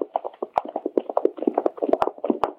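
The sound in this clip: Rhythmic clip-clop of horses' hooves on the road during a long ride, many hollow knocking hoofbeats in a steady, even gait, moderately loud with no talk.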